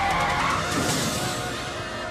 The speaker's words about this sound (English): The brakes! Hit the brakes!